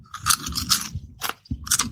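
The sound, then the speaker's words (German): Thick, hard-shelled kettle-cooked potato chips crunch under chewing in several loud, crisp crackling bursts separated by short pauses. “Aber an sich Kesselchips mit dieser Schale, mit diesem sehr knusprig, krossen. Warte mal, ich probiere es nochmal.”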